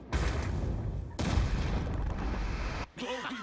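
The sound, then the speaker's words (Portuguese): Volley of gunfire in an animated cartoon: a dense, loud roar of overlapping shots that runs for nearly three seconds with a fresh surge midway, then cuts out before a brief voice. “Abaixem! Fogo!”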